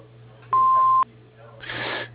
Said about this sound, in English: If you leave a message after the beep, there's a good chance we'll call you back.